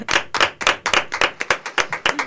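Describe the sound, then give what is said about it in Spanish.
Hands clapping to applaud a guest's contribution, a quick, even run of sharp, crisp individual claps, roughly four per second, from one or a few people, with no talk. “nosotros solamente le vamos a dar ahora un aplauso a su intervención”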